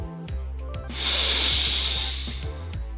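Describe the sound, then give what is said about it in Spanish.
A person taking a long, deliberate inhale during a breathing exercise, expanding the rib cage sideways. It makes a steady, airy hiss lasting over a second, with soft rhythmic background music underneath. “Inhala expandiendo tu caja torácica hacia los lados en lugar de inflar hacia el frente.”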